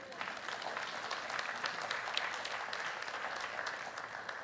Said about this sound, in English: Like, that'd be a good point to clap and make sure you're awake.